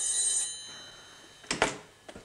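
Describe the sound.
A telephone bell rings in a German office, a bright, high metallic trill lasting about half a second at the start. After a short lull, a few sharp clicks and clatters follow.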